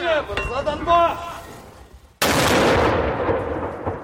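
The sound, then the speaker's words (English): A single mortar round fired by a Ukrainian mortar team in a battlefield town gives one sudden, loud blast that rolls on with a long, slowly fading rumble. A brief voice is heard before it. “We see a Ukrainian mortar team dart into position and target the enemy nearby.”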